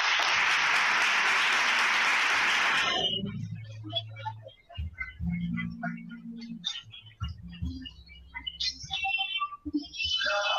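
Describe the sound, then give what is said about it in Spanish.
Applause for a prize winner at a school awards ceremony: loud, dense clapping for about three seconds that stops abruptly, followed by quieter scattered sounds. “Y un aplauso.”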